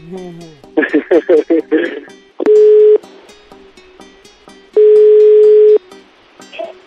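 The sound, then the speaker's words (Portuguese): A telephone ringing tone during a call: two long, steady, low beeps a couple of seconds apart, the second one longer, following a short stretch of talk and clattering at the start. “Vamos ligar pra ela.”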